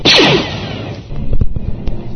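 A Star Wars blaster shot fired: a loud, sharp zap that sweeps downward in pitch, then a softer rumbling tail scattered with a few short clicks.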